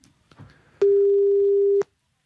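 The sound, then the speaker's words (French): A telephone ringback tone while an outgoing call is placed to a company: a few faint clicks, then one loud, steady, mid-pitched tone that holds for about a second and stops cleanly. “Nous allons immédiatement, si vous le voulez bien, lancer l'appel.”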